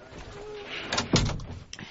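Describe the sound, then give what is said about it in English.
A door being shut at a police station lands as a single dull, low thud about midway through, over a quiet background hum. “Shut the door a minute”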